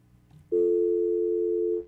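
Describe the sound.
A telephone line tone sounds after a caller drops off: one steady, unbroken electronic hum lasting a little over a second, rising abruptly out of quiet and then cutting off.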